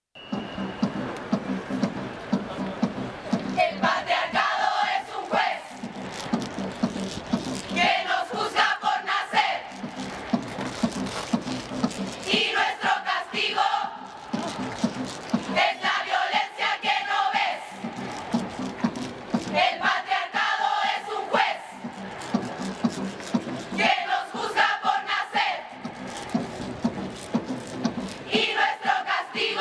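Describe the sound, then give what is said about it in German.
Mass performance by women in Valparaíso, Chile, chanting loudly in unison against sexualized violence; forceful chanted phrases come in regular rhythmic bursts separated by short pauses, repeating across the whole stretch. “Und weil es eigentlich gar kein Lied ist, sondern eine öffentliche Massenperformance von Frauen, die lautstark gegen sexualisierte Gewalt protestieren. So klingt das.”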